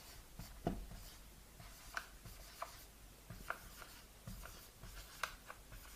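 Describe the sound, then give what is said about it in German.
Handwriting with a pen on paper: faint, quiet scratching strokes come in short irregular bursts, with a few sharper ticks as the pen lands or lifts. “Schreibe ich mal hin.”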